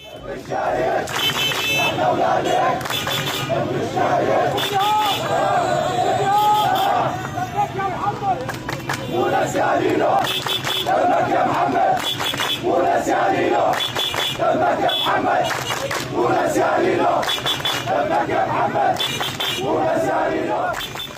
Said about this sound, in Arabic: وقف المشاركون رافعين هتافات أحيت ذكرى الشهيد